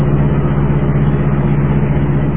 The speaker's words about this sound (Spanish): los tres autos patrulla avanzaban con las sirenas apagadas.